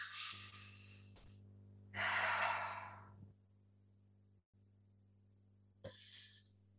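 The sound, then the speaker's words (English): Deep breaths drawn in and let out: a breathy inhale, then a louder, sighing exhale, then another airy breath starting near the end, all over a steady low electrical hum with no talk. “Deep breath in and out, everybody.”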